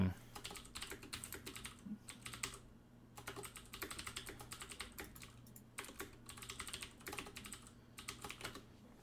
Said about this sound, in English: Let me type it into the chat, and then you can look into it later.